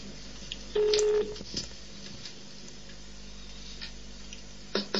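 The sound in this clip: Telephone dialing tone: a single steady electronic beep of about half a second over a low line hum, followed later by a couple of faint clicks.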